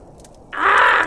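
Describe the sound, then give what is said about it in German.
A single harsh raven caw from a bird perched high in the crown of a large oak outdoors: one loud, rasping call lasting about half a second, heard alone after a quiet moment. “Was ist das wieder für ein Gekrächze da draußen? Nie hat man seine Ruhe. Tag ein, Tag aus sitzen sie hoch oben in der Krone”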